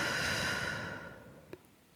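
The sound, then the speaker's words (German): A deep, slow breath out through the mouth during a guided relaxation exercise: a long, soft, airy exhalation that fades gradually over about a second and a half, then a faint click and quiet. “schließe die Augen und atme tief durch die Nase ein und durch den Mund aus.”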